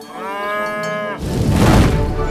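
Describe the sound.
A cow moos once, a loud, drawn-out, low harmonic call lasting about a second, followed at once by a louder stretch of rough, broad noise.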